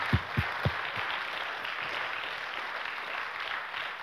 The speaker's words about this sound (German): Ach, klatschen doch mal ordentlich für Jesus, Mensch.